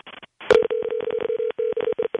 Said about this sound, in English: It's a good ring. Sure is. Oops. Calling a quality individual.